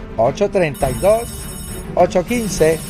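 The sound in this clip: A telephone rings with an incoming call on a spiritual advice call-in line, a thin, high, steady ringing tone running under a talking voice.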